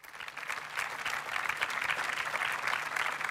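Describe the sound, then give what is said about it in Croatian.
Applause from a festival audience in Zadar marking the festival's 66th year: dense, steady clapping that holds at an even, fairly loud level throughout, with no voices over it. “Molim vas, jedan veliki pljesak za Pavla Dešpalja.”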